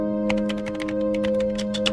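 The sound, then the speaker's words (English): Keys clatter on a computer keyboard in a quick, irregular run of many light clicks over a steady tonal hum, with no voices. “The typing has different things going up on screen there.”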